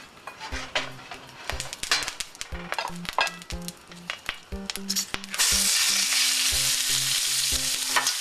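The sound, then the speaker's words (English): Meat cooks in hot oil in a large frying pan over medium heat, with many scrapes and clinks of a utensil stirring it. About two-thirds of the way through, a loud, steady sizzle swells up and continues to the end. “I heat up my frying pan on medium, and then when it's hot, add the oil, and then add the meat.”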